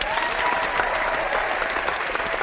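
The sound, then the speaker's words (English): Applause from a crowd, a steady dense wash of clapping that holds at an even loud level throughout with no pauses. “Applause. Lots of applause.”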